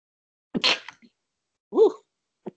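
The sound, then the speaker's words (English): A single sharp sneeze from smoke getting in the nose, followed after a pause by a short voiced sound and a faint click, otherwise quiet. “sneezing. That smoke got in that nose.”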